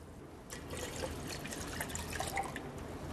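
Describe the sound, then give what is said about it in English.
A liter of water is poured into a pot to make a soup base. A steady, splashing trickle begins after a brief quiet start and continues fairly softly. “We're going to put in 1 liter of water”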